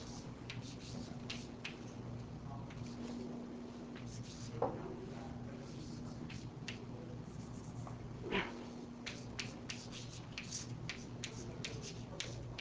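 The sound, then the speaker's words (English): Faint scratching and tapping of writing on a board in a lecture, with many short, irregular strokes over a steady low hum. “let me just write it out here.”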